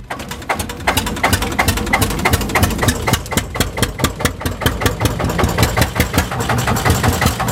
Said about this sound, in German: Mit dem Einzylinder rauf aufs Stilbser Joch.